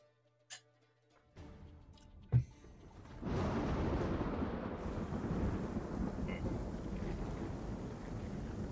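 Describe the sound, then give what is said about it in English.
Heavy rain and storm noise set the scene for a fantasy tabletop role-playing game, with characters standing in rain and mud. A couple of sharp knocks sound over near quiet, then a dense, steady wash of rain comes in and holds to the end, with no voices. “So you're standing there in the rain and the mud.”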